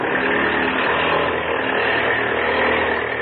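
A propeller plane engine roars at full throttle in a steady, dense drone with no breaks, loud and even from start to finish and slightly muffled in tone.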